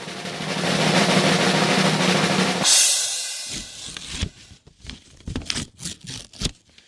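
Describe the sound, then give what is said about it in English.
Paper rustling and tearing as an envelope is handed over and opened at an awards announcement; a steady rustle lasts a few seconds, then gives way to a run of sharp crinkling and ripping bursts. “The envelope, please. The envelope, please. All right. I'm being handed the envelope.”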